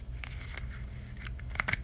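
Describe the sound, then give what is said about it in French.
Faint snipping clicks and a light tearing crackle as a bottle cap with an aluminium seal is opened, scattered sharp ticks building to a denser cluster near the end. “Pas un si grand bruit que ça, c'est juste un bouchon.”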